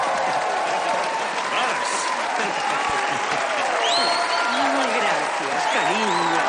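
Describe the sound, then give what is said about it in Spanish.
Enthusiastic audience applause at a dance performance forms a dense, loud, continuous wash of clapping. Scattered cheers and whistles rise above it throughout. “mientras el público aplaude y se levanta entusiasta”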